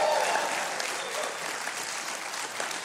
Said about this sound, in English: How about a big hand for Trey Corley and the Music City Connection tonight? Let's hear it for him.